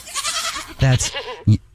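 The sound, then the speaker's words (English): A goat bleats twice after brief talk: first a longer, wavering bleat, then a short, sharp one. “Have you stolen other goats? Because I heard about three goats right there. There's another goat.”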